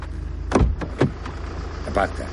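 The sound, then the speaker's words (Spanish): A motorcyclist opens a car door: a couple of sharp clicks and thumps from the latch and door, followed by a softer clunk, over a low, quiet background. “El motorista abre la puerta del coche.”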